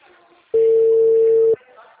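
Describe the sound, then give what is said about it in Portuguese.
Telephone tone as a call is placed to the last number dialed: a single steady, mid-pitched electronic beep lasting about a second, loud against faint background talk before and after. “Ligando. Tô ligando pro último número aqui, ó.”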